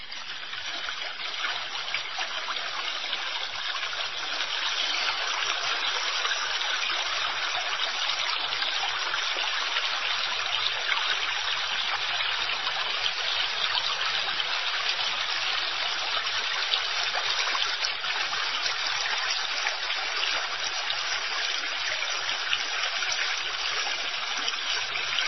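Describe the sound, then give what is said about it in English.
River water flows at its source in late autumn, running out from under frozen ground: a steady, unbroken rushing hiss of moving water, even in level and alone, with no voices. “is the sound of a river being born.”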